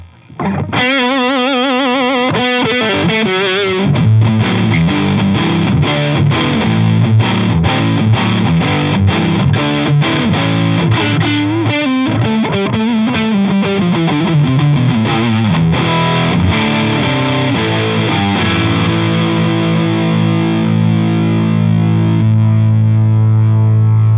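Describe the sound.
A PRS SE 245 electric guitar played through heavy distortion: a continuous, loud run of chords and single notes that settles into a sustained ringing chord at the end, with no talking.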